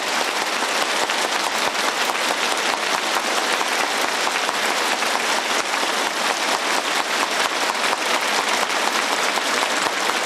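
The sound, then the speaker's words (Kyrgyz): Warm applause from teachers and students rising to their feet as two party leaders arrive at a school: a dense, even roar of many hands clapping, loud and unbroken for the whole stretch, with no voices standing out. “Жунго Чаушен эки партиянын баш ужилери жетип келгенде окутуучу окуучулар чогуу ордунан туруп эки партиянын баш ужилерине кызуу кол чапты.”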